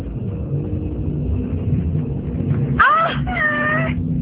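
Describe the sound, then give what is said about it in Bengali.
A cat meows twice in quick succession inside a house. The calls are clear and tonal with bending pitch, loud over a constant low rumble. “আরে বিড়াল তো, এত ভয় পাওয়ার কি আছে, কিচ্ছু হবে না।”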